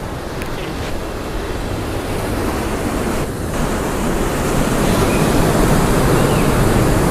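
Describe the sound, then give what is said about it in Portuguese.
Rushing water of a river flowing through the desert in Israel makes a steady, broad roar that slowly grows a little louder. “O rio do deserto, olha que lindo, olha que incrível, água viva, uau.”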